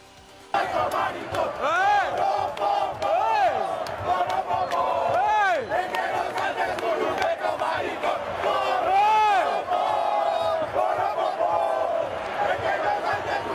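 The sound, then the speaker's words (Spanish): Massed voices of football fans singing a chant in a stadium, loud and sustained with wavering, rising-and-falling sung notes, after a brief quiet start. “Escuche este coro de ayer en el estadio.”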